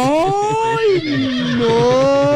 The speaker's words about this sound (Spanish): Él quiere que el caballo le relinche, sí, señor.